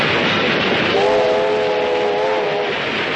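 A military train with loaded wagons rumbles in a loud, steady roll. One sustained, tonal horn or whistle blast rises over the din midway through, then stops while the rolling noise continues.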